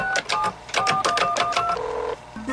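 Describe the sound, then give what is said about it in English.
A 1980s computer dials into a school's computer over a telephone line, a rapid string of short electronic beeps followed by longer steady modem tones, loud and with no voices. “What are you doing? Dialing into the school's computer.”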